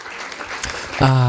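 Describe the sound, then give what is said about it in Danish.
Canned applause sound effect bursts out briefly as dense, even clapping, and a voice begins speaking right at the end. “Har vi noget klapsalve liggende, Nanna? Ja, det har vi.”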